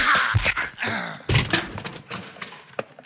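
Blows landing in a staged fistfight in an old-time radio Western, a run of loud, heavy thuds and thumps packed closely together, the last ones sharper and more scattered.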